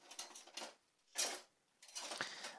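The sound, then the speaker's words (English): A wooden spoon stirs a pot in a home cooking session: three faint, broad scraping strokes separated by short pauses, the last one longer. “now I will stir”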